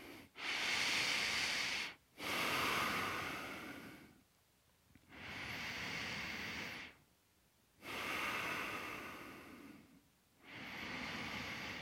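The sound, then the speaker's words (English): Deep, audible breathing during a yoga hip opener with palms together and the pelvic floor engaged in mula bandha: a steady series of about five long, airy inhale and exhale phases, each separated by brief silence, with no talk. “Good time for mula bandha, engaging the pelvic floor muscle. Ah, and breathe with me.”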